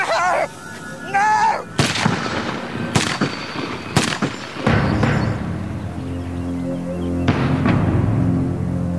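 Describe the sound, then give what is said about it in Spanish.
A hail of gunfire in a violent attack scene: a few sharp, loud bursts crack out in quick succession, then give way to a sustained low rumble. “Rápidamente el loco se abalanza sobre ellos y les dispara con una lluvia de balas.”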